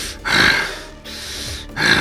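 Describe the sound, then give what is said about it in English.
A voice imitates the heavy breathing of a huge, glaring creature: a few long, rasping, breathy exhalations, loud and noisy, separated by short pauses. “you watch as it breathes. It breathes a sort of.”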